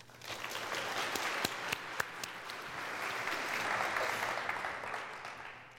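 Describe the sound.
Steady audience applause welcomes a speaker to a computer science talk, dense, even clapping that holds at a constant level for several seconds without any voices.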